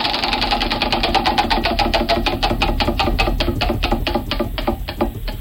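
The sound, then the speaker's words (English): Mechanical ratcheting of quiz clock hands spinning: many sharp ticks in a fast train that gradually spaces out and slows toward the end. “Let's spin the hands. Where will it go? Where will it go? Who will it land on?”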